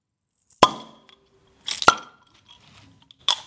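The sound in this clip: A swing-top bottle of Altenburger beer is opened: a sharp clack, a brief hissy burst with a ringing glassy clink, then another short burst, all fairly quiet and alone.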